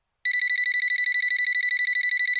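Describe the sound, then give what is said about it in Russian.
A mobile phone rings with a fast, even electronic trill of high pulses. It begins after a brief moment of silence and carries on steadily to the end without any voices. “согласился Соболев, и в этот миг зазвонил его телефон”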